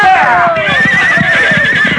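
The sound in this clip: Horses whinny and hooves clip-clop as riders gallop. A loud whinny slides down in pitch over a steady, rapid patter of hoofbeats.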